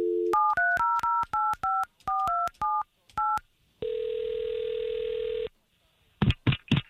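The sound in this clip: Touch-tone keypad beeps as a telephone number is dialed: a rapid, uneven run of many short dual-pitched tones, then a long steady ringing tone, ending with a few brief sounds.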